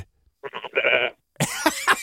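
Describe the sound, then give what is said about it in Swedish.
Sheep bleating close by, with two wavering, throaty calls: the first breaks into a stuttering series of short pulses, and the second is harsher and broader after a brief silence. “Var det du eller har du ett får där? Jag står vid fåren.”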